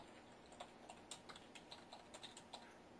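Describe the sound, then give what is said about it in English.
Quiet clicking of computer keyboard keys as an email address is typed, many quick, irregular taps in a steady stream. “I'm going to hit the break key and use my keyboard and put in”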